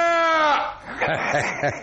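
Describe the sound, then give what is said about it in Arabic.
A sheep bleating, the poet Rami's ram in an Eid al-Adha tale: one wavering, nasal cry that slides downward in pitch, followed by a short stretch of talk. “مال بفمه على أذن خروف الشاعر رامي، فقام خروف رامي ممأمئا”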